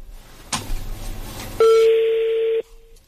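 After a call goes unanswered and rolls to voicemail, a single long, steady electronic beep sounds over a soft line hiss, then cuts off.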